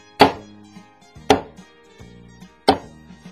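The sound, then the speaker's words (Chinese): Garlic cloves being crushed flat give three loud, dull thumps spaced about a second apart, with fainter knocks between them. “就是把那个大蒜的颗粒啊，把它打扁，只要这样就好，不要切碎”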